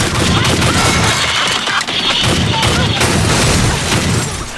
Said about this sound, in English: So we just shot a couple things with my gun.